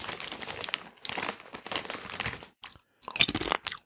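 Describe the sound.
Fruit gummies being chewed, with crunchy, crinkling mouth and packaging-like noises in a few bursts separated by short pauses, close and moderately loud, with no talking.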